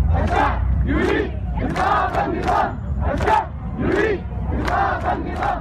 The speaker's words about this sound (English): For more than a month, towns and cities in Sudan have been gripped by protests. Men and women marching on the streets, chanting peace, justice and freedom.